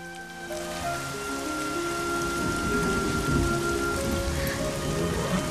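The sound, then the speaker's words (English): Torrential rain pours down in a loud, continuous hiss of heavy drops striking surfaces, with deep thunder rolling beneath it as the downpour holds steady throughout. “Katie rides Flicker in torrential rain.”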